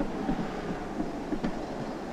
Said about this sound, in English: The tram has just arrived at a stop.